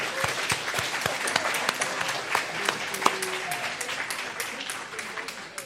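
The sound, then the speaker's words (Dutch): Applause rises for Christine and her staff, who catered a meal at an Evangelical church on Easter Sunday: a crowd claps steadily and densely for about six seconds, fading slightly at the end. “Christine en haar medewerkers, misschien een applausje voor”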